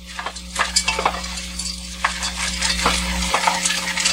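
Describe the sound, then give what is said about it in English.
Frozen peas being stirred in a pan give a loose, rattling clatter of many small hard pellets rolling like marbles, in irregular bursts over a steady low hum. “I like the sound of stirring frozen peas. I know, it's like marbles.”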